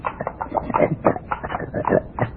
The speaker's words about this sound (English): What's that? Oh, that? Just my pet pig